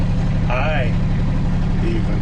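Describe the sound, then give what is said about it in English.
Engine of a two-wheel drive side-by-side utility vehicle driving through the woods: a steady, low, rumbling drone that continues throughout, with a brief voice-like sound rising over it early on. “one who was quite proud of the capabilities of his side-by-side. That was a two-wheel drive.”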